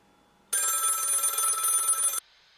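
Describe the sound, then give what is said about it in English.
A telephone rings in a studio: one sustained, bright electronic ring burst lasting under two seconds that starts and stops abruptly, alone against near silence. “the phone in the studio that I'm sure was not here just moments ago is ringing.”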